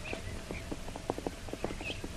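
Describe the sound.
Horse hooves clip-clop in a steady, even rhythm as riders travel north on horseback in a jungle adventure drama, the many hoofbeats moderately loud and continuous.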